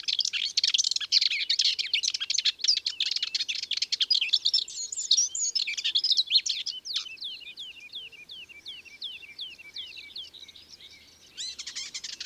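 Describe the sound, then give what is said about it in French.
A common whitethroat sings from deep within a thick hedge around a meadow on a May morning. Its scratchy, hurried phrases pour out in fast bursts, then turn to a run of quick repeated chirps, with a final burst at the end. “devant nous, dans l'épaisseur de la haie, c'est la fauvette grisette. Avec son chant grinçant, nerveux, précipité.”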